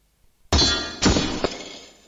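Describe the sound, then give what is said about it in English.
Sword strikes sword in a fantasy role-play fight against an undead skeleton: a sharp metallic clang rings out, followed by two more clashes, with bright, lingering metallic ringing throughout. “Sword strikes sword. Sparks fly, but no damage was dealt.”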